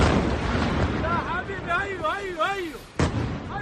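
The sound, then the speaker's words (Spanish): Bombs exploding at night in Tehran during an Israeli air strike: a deep, constant rumble with wavering voices rising and falling midway, then a sharp, loud blast near the end. “El sonido de las bombas ha marcado la noche en Teherán.”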